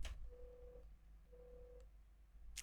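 Telephone busy tone after a phone-in call to a radio request line drops: two steady, mid-pitched beeps, each about half a second long and separated by a pause, faint over a low hum.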